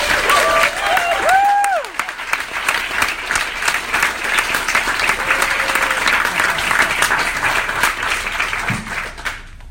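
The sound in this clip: An audience at a literary reading applauds to welcome a poet and writer to the stage, a loud, dense wash of clapping that holds steady for the whole stretch.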